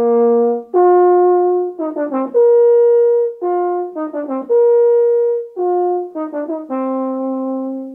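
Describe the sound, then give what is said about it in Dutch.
A euphonium plays a mellow, mid-range brass melody: sustained tones broken by quick runs of short notes, repeated in similar phrases, loud and alone. “En een eufonium klinkt zo.”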